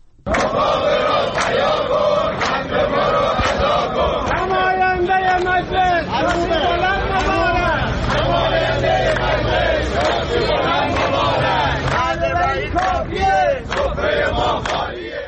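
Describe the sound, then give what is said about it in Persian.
Retirees protesting at a rally in Iran chant slogans together, a loud, continuous crowd roar of many raised voices with rhythmic, pulsing surges throughout. “در این تجمعات که از جمله در استانهای خوزستان، کرمانشاه، مرکزی و لرستان برگزار شد، معترضان شعارهایی از قبیل نماینده مجلس شاسی بلند مبارک سر دادند.”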